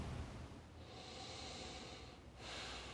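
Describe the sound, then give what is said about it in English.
A big deep breath taken during an anxiety-relief tapping exercise: two long, breathy rushes of air separated by a brief pause, soft and airy with a slightly nasal hiss. “Big deep breath.”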